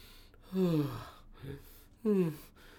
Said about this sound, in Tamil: மூச்சு வாங்குது.